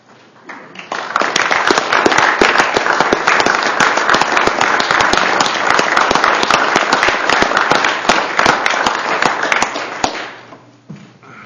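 Steady applause welcomes FFA chapter visitors in a state Senate chamber. Dense, even clapping rises quickly and holds strong for about nine seconds before fading out.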